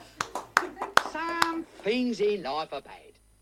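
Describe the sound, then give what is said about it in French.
Scattered hand claps from a concert audience: a handful of sharp slaps in quick succession, followed by voices calling out. “Le public, merci à vous et je me remercie moi-même. Et le public en folie.”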